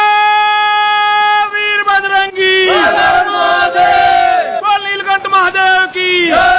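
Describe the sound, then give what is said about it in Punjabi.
Devotees in a temple chant praises of Lord Shiva. Loud group voices hold a long sustained tone, then break into a series of shouted, rhythmic calls. “ਮੰਦਰਾਂ ਵਿਚ ਸ਼ਿਵ ਭੋਲੇ ਦੀ ਮਹਿਮਾ ਦਾ ਗੁਣਗਾਨ ਲਗਾਤਾਰ ਚੱਲ ਰਿਹਾ ਹੈ ਅਤੇ ਮੰਦਰ ਸ਼ਿਵ ਭੋਲੇ ਦੇ ਜੈਕਾਰਿਆਂ ਨਾਲ ਗੂੰਜ ਰਹੇ ਨੇ।”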